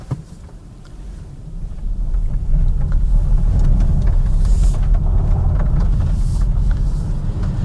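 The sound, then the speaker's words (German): A Polestar 2 Long Range Single Motor electric car with 231 hp pulls away after being shifted into drive. Low rumbling road and tyre noise builds over the first few seconds, then holds steady with a breathy wind hiss. “Sobald ich mit dem herrlichen Hebel auf Drive schalte, ist der Antrieb aktiv und es geht schon los.”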